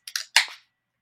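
A can of Lone Pine milkshake double IPA is cracked open: a couple of short clicks, then a sharper, louder pop followed by a brief burst of fizzing hiss that quickly dies away into silence.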